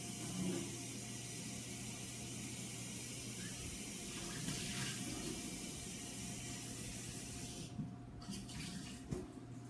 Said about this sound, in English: So, I'm just going to rinse this guy out here.